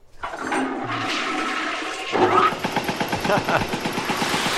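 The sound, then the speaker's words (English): A toilet flushing as a foley sound effect: a rushing surge of water that shifts midway into a rapid series of rhythmic gurgling pulses as the bowl drains. “Good toilet foley.”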